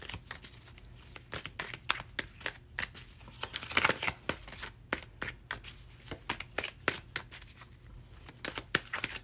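Someone shuffles an old, well-used Morgan Greer tarot deck, producing many quick papery riffles and slaps in an uneven rhythm, fairly quiet and with no voice.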